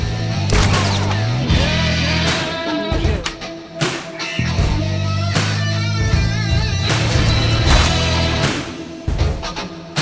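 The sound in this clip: Gunfire in a turn-based, isometric Old West shoot-'em-up video game: many sharp shots at irregular intervals, loud over a sustained tonal music bed.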